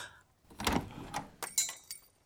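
Haberdashery shop door being opened: a few quiet clunks and rattles spread over about two seconds, soft throughout and without voices.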